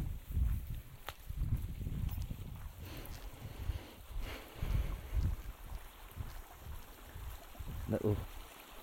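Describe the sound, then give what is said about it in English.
A small beck flows under a little bridge, a steady rushing of water mixed with low rumbling gusts and soft thumps as someone walks across. “Beck flowing. I'm walking over the bridge now, little bridge, walking over this beck.”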